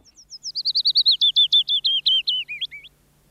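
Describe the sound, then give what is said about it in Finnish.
A songbird sings one song phrase alone: a quick run of many bright, high chirping notes that gets louder and drifts slightly lower in pitch, then ends in a few lower, twisting notes. “Peippo laulaa iloisesti duurissa, mutta pajulintu visertää vienosti mollissa.”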